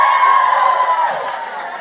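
A studio audience cheers and whoops loudly. The sustained, high-pitched crowd noise fades only slightly toward the end.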